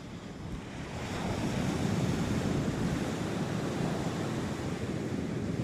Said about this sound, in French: Il y a plus de plage, le sable est mangé. Et alors, l'eau affleure presque au niveau du quai.